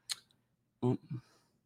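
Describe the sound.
A computer mouse clicks once with a crisp, short tap, then a faint second tick follows before a voice speaks briefly.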